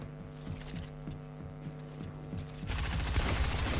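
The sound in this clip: Rapid gunshots in a zone wars match of a video game, a regular string of sharp cracks over a steady tonal background, followed by a louder rush of broad noise near the end.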